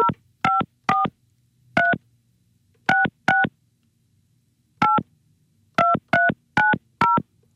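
A telephone number is dialed on a keypad: eleven short, clear touch-tone beeps in uneven groups, with pauses between them and no talk over them.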